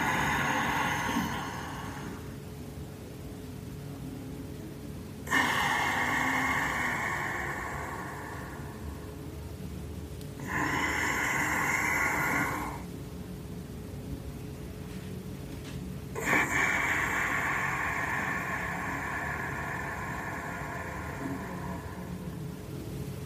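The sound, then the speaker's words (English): Hissing breath drawn through the throat with a cooling sensation, heard as four sustained bursts of soft, airy hiss, each lasting a few seconds, separated by quieter pauses, with no talking. “So you're going to concentrate on the hissing, and it's a little bit of a cooling sensation you're going to feel in your throat”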